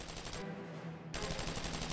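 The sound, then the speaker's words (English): Turret machine-gun fire rattles in a World War II video game. It plays as quiet, rapid, evenly spaced bursts, with a brief thinner lull in the middle. “Be prepared to gun down enemy soldiers from the turret.”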